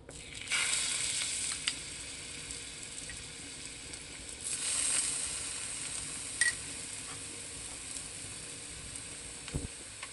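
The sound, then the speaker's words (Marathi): Ginger garlic paste sizzling as it sautés in a pan: a steady, bright hiss of frying that holds throughout, with a few faint clicks and taps from stirring. “लसूण paste व्यवस्थित परतून घेऊ।”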